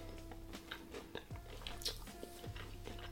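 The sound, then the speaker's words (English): Quiet biting and chewing of a mince pie, with soft, irregular mouth sounds and small crumbly clicks over a faint steady hum. “I'm just not convinced it's a mince pie. Maybe I should eat another one just to be sure.”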